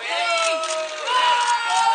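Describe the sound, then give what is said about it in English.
Excited fans shout and scream as a celebrity singer stops to chat and give hugs, with high, strained voices overlapping in a continuous, loud clamour. “It's Billie Eilish, and some are shouting in excitement as she stops to chat and give hugs.”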